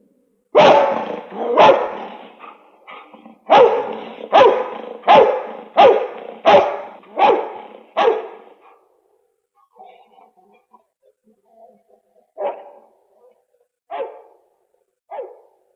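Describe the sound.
A dog barks in a fast run of loud, sharp barks, then goes quieter. After a pause come a few softer sounds and several more widely spaced barks.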